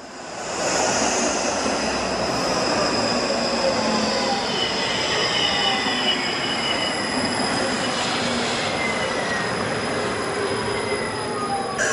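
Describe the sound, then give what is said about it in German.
A tram with compressed-air brakes rolls past with a steady, loud rush of wheels on rails, thin metallic squeals streaking through, the noise holding level for the whole stretch. “Oder Stuttgart, kommt drauf an, weil Druckluftbremse, die man im Hintergrund hört.”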